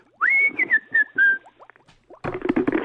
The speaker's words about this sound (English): Who the hell is whistling there?